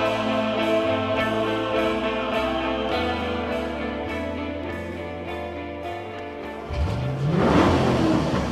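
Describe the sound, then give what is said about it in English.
A police car's engine races through town streets, holding a steady loud drone before surging upward in pitch near the end as it accelerates. “With DJ Jeffy Jeff in the back of the police vehicle, Sergeant Hank races through the streets of Watertown en route to the Sound FM radio station.”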